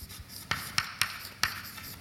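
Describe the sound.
Writing during a maths explanation: a faint, scratchy rubbing punctuated by four sharp ticks, with no voices.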